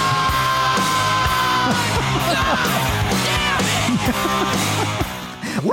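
A man's harsh, sustained scream over loud, dense music in a played recording as a song closes out, staying strong throughout and dropping off briefly at the very end.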